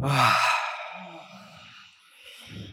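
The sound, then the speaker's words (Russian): A deep exhale during a guided breathing exercise: a loud, breathy release at the start that fades into a quieter, softer flow of breath. “Mit dem Wunsch, euch von dem Inhalt zu befreien, atmet ihr aus.”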